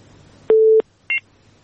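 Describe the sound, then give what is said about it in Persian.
Telephone keypad tones from a call being placed: a longer steady beep, then a brief higher dual-tone beep. A faint low hum runs underneath. “خب یک تماس میگیریم.”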